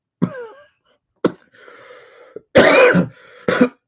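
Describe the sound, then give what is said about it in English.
Harsh coughing from a person who has been ill with a bad cough, a few sharp bursts with short pauses between them. Strained, throaty rasping fills the gaps, and the loudest, longest cough comes near the end. “sorry, that wasn't planned. I've been taking some drugs and I'm trying to fight this cough off”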